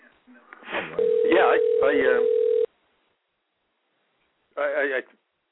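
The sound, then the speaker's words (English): A telephone call being placed: a steady line tone holds for over a second under narrow, phone-filtered voices, then silence, then a short burst of phone-filtered voice. “I'm gonna dial in Eddie on this one now.”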